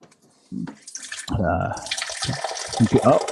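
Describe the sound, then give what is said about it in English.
Water being poured into a glass, a gurgling, splashing stream that starts and stops in bursts, with a voice briefly heard alongside. “That's water going into a glass.”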